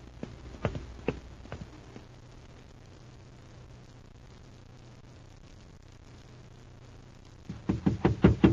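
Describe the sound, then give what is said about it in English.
Hurried footsteps of a man walking around a corner: a few scattered, hollow steps at the start, then a long quiet stretch, then a quick run of sharp, evenly spaced footfalls that grows louder. “a man's coming around the corner. And from the way he's stepping it off, he's in a hurry.”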